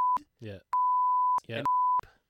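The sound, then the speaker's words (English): Censor beeps added in editing: three steady, high, pure-tone bleeps cut sharply across short bursts of speech, each beep loud and flat in pitch. “We'll see if we can get a hard beep in this edit.”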